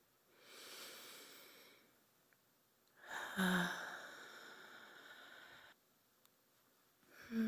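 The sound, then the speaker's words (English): Slow, intentional breathing during prayer: long, soft inhales and exhales stretched over a few seconds each, with quiet pauses between them and no talk. “as we go deeper into a time of prayer together, I invite you to join me with three more intentional breaths.”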